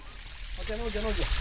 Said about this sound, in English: There's fake rain pouring on them from a water pipe high above.